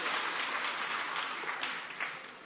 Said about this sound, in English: 我哋都歡迎你，俾啲掌聲你哋好嗎 ？